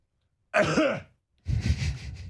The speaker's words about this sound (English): You didn't pick that up, you just coughed straight in the mic.